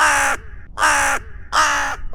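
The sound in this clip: A crow caws three times, each call loud, harsh and drawn out, in an even rhythm, with a fourth caw just starting at the very end.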